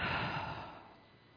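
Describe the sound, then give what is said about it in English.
A person's breath: a single soft, airy breath that starts fairly strong and fades out over about a second, quiet and alone. “Inhale. An exhale.”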